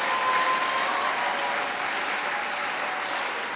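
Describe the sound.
A church audience applauds during a service, a steady, dense wash of clapping that holds an even level throughout.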